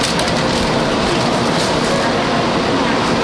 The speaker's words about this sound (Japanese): 新幹線がのぞみですかねのぞみが今品川駅から